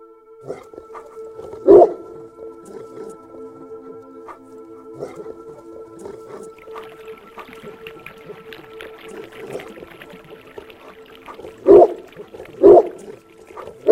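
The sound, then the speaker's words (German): Deep barking from a large dog in a garden at dusk, a few loud, low barks spread apart, with a pair close together near the end, over a faint steady drone. “Als Antwort erscholl in der Dämmerung tiefes Gebell, und aus dem Garten kam ein mächtiger Hund mit spitzen Ohren, grauem Fell und einem Halsband mit Goldbeschlägen auf den Balkon gesprungen.”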